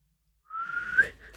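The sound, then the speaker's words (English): A person whistling with lips and tongue rather than teeth: one clear, sustained tone that slides gently upward, starting after a short silence and breaking off near the end. “I don't use my teeth when I whistle. It's all lips. All lips and tongue.”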